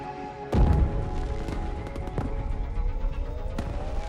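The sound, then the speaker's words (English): Fireworks explode in a display over the Olympic green: a heavy low boom near the start, then a few sharp cracks over a continuous crackling rumble of bursts. “Explosions within explosions fill the sky. Sparkling flares shoot in a geyser, and bright rainbows rocket down the Olympic green.”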